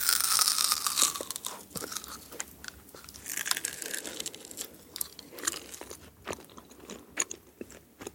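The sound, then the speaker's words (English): Close chewing of gum, with moist crunches, bites and crinkly smacks repeating many times at a steady, intimate level and no talking. “Excel gum and ASMR. Search Excel Gum on Spotify now and choose one of four ASMR audio experiences.”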